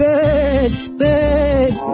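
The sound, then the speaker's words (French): Sheep bleating: two wavering, nasal bleats, each about three quarters of a second long, separated by a short pause and fairly loud. “Vous savez que si vous continuez, c'est tout un troupeau d'ex qui vous suivra en bêlant.”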